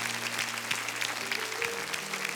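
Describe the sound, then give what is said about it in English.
A church audience claps their hands in praise after a prayer, a dense, even burst of applause that holds steady throughout. “If you agree with that prayer, give God a hand clap of praise.”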